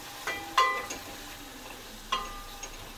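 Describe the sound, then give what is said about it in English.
Broth simmers and reduces in a pan with a steady, soft bubbling hiss and a few faint clicks. No one talks. “So even the viscosity of the broth right there. It's cooking down, it's getting the broth getting more and more.”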